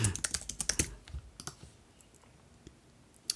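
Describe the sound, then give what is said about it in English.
An email address being typed on a computer keyboard: a quick flurry of keystrokes in the first second, then a few scattered taps and a final sharp click after a pause. “someone@somewhere.net. I can't type today, whatever.”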